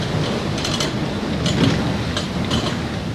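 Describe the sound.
Grain mill machinery runs in a working mill where corn is ground finer in several stages, passing through pipes between grinding units. It makes a steady, loud mechanical rumble with faint rhythmic clicking and clattering on top.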